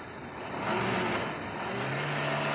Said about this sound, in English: We're turning the corner now. Indicator out.